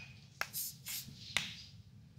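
A pen writing down a guess in a quiz-show studio: a few short, quiet, scratchy strokes, each set off by a small tap.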